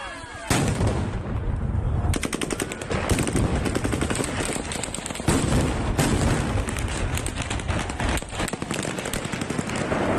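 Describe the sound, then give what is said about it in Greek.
Gunfire aimed at a crowd of protesters against the Russian invasion in central Kherson, a dense, sustained crackle of rapid sharp shots and bursts, loud and continuous for the whole clip. “Οι εικόνες που κυκλοφορούν στο διαδίκτυο φέρονται να δείχνουν Ουκρανούς στη Χερσόνα να δέχονται πειρά την ώρα που έχουν βγει στο κέντρο της πόλης για να διαδηλώσουν κατά της ρωσικής εισβολής.”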